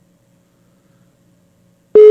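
A telephone tone sounds while a call is being placed. Near-silence gives way to a sudden, loud, steady low-pitched beep that starts just before the end.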